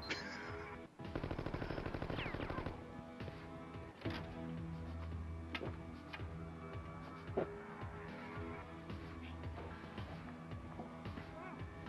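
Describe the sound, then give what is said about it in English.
Machine-gun fire rattles in a video game as a rapid burst of shots, then a few scattered single shots. Everything sits faint over a steady game background. “Oh, she's got a machine gun.”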